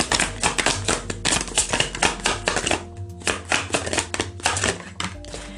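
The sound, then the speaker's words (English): Tarot cards being drawn and handled from a deck make many quick, crisp taps and flicks in an uneven rhythm over a steady low tonal background. “Let's get one more card”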